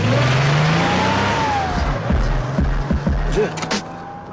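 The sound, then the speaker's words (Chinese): A car sets off from a garage and drives away, a steady engine hum with a few low rumbling thumps and a faint higher whine running throughout, with no one talking. “7:40到达车库，系好安全带，打开收音机，出发。”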